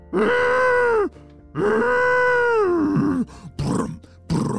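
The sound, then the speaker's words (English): A human voice imitates an angry rhinoceros with two long, low, growling groans, the second one longer, followed by a few short, rougher grunting bursts. “That was the sound of a ginormous, very angry-looking rhinoceros.”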